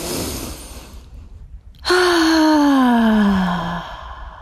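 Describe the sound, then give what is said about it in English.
A person takes a deep breath in, heard as a soft airy inhale, then lets out a long, loud voiced sigh whose pitch slowly falls before it fades. “Take a nice big breath.”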